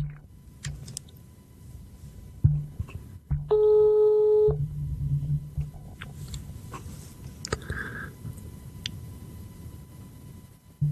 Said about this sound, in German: Ich rufe ihn mal an und dann hören wir mal, was so passiert.